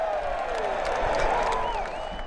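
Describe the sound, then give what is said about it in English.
Golf fans roar from packed bleachers around hole 16 at the WM Open, a loud, steady crowd din that holds unbroken, with a few higher shouted tones riding over it. “It's like a scene from a gladiator movie, as nearly 17,000 fans fill bleachers on all sides of the hole, cheering whenever the players make it onto the green, and raining down a tidal wave of boos when the players come up short.”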